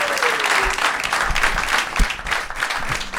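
An audience applauds to welcome a guest, a pebble-collecting enthusiast. The clapping is dense, steady and loud and holds at an even level for the whole stretch.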